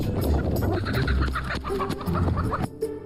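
Chickens clucking on a mountain farm, many birds overlapping in a dense, continuous clamor of clucks and squawks that holds a steady level before easing slightly near the end.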